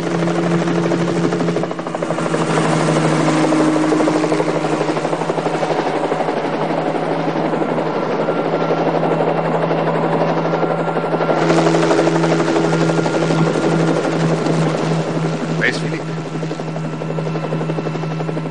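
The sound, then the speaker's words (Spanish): Helicopter flying low over the ground near a car, a steady loud rotor drone with a humming engine tone that fills the whole clip without letting up. No voices. “Llega un helicóptero que pasa a ras de suelo cerca de donde están Butch y Philip.”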